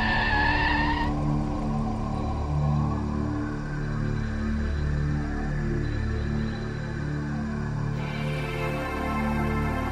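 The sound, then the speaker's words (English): Tyres squealing as a taxi weaves and skids, over a continuous, loud engine and road rumble. High-pitched squeals are sharpest at the start and return near the end. “Taxi's weaving about all over the place, though.”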